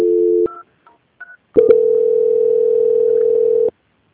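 Telephone line tones during a call transfer: a steady dual tone, then a few short beeps after a brief pause, then a long, loud, steady single tone lasting about two seconds before cutting off. No voices.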